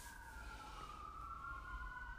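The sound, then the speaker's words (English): Sirens of emergency vehicles wail outside a home, a steady, slowly wavering tone that holds through the whole stretch with no talk over it. “I'm hearing sirens in the background at my place”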